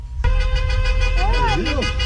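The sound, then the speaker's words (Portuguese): Car horns honk in stopped traffic as drivers salute a young girl on her way to her last chemotherapy session. A loud, sustained horn tone carries through the whole clip, with people's voices over it. “A trajetória para a última quimioterapia parou o trânsito. Todo mundo buzinou para Maria Alice.”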